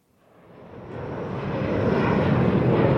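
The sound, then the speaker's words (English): An airplane at an airport swells from silence into a loud, broad engine roar. The rushing drone builds smoothly and holds steady toward the end. “The next morning at the airport, Nikki's flight has landed.”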